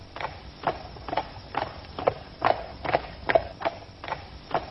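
Horses' hooves clip-clop at a slow walk as four riders leave town, a steady run of many even, moderately loud hoof strikes with no voices.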